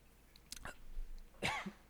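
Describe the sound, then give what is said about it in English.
Coughing from a choking fit: two short, harsh coughs separated by a brief pause, fairly faint. “Oh, excuse me. Choking? Yeah, it was.”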